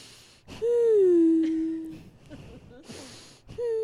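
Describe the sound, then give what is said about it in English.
A voice imitates the breathing of a woman in labour having contractions: a long, moaning, voiced exhale, then ragged breathy panting, and another moan beginning at the end. “not even making noise, just breathing. I had to make the noise because I'm talking to a microphone.”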